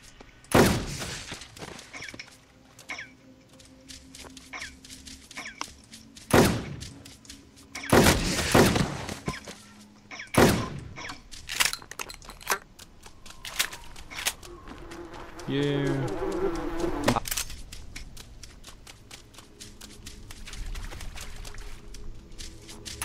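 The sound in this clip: Gunfire from shooting zombies in a video game: several sharp, loud bursts of shots break out at irregular moments, with people talking over and between them.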